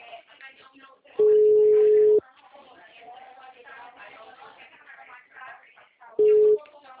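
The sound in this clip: Telephone ringback tone of an outgoing call: a steady, mid-pitched tone lasting about a second, then a shorter one several seconds later, both loud over faint, continuous background chatter.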